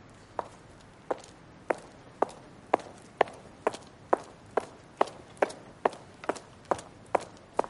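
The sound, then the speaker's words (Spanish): Footsteps climb a steep stone staircase toward a church precinct: many sharp, crisp treads in a steady rhythm, each step a distinct tap, quickening slightly as the climb goes on, with no voices. “Sube la empinada escalera de piedra.”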